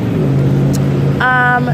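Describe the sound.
A car drives south on Euclid Avenue with a steady, loud engine and road hum, and a voice talks over it.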